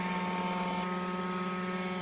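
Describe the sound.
Helicopter drone hovering in automatic stationary mode during a research test flight, giving off a steady, unbroken rotor and engine drone with a constant hum of tonal whine. The sound stays even throughout with no voices.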